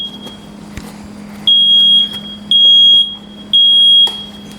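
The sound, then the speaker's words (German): A smoke alarm sounds three loud, shrill, sustained beeps in an even on-off pattern over a low steady hum, with no talking. “Genau, das ist der Rauchmelder. Ihr hört, wie laut der ist.”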